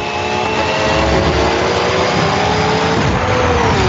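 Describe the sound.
A race car engine revs in a racing video game, a loud, continuous buzzing roar whose pitch climbs steadily toward the end.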